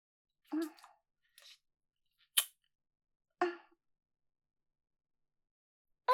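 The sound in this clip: Biting into and eating ice cream. A few short, crisp crunching and smacking sounds spaced apart by silence, with no talking.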